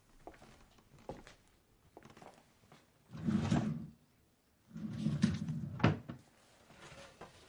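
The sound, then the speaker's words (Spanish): Drawers and cupboard doors being pulled and pushed as a man searches the shelves and drawers of a young woman's bedroom: a few light knocks, then two longer rumbling slides, each ending in a sharp thunk. “El hombre busca en las estanterías y cajones de la habitación de Kelly.”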